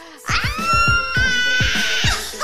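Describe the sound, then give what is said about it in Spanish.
A person's voice imitates a Tyrannosaurus rex roar as a long, loud, harsh screech held for about two seconds, with repeated low thumps pulsing beneath it. “Grito de Tiranosaurio Rex.”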